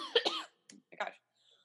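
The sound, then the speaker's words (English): A person coughs a few times, in short, separate bursts followed by quiet. “I don't have COVID. I just feel like every time I cough now, I have to announce that”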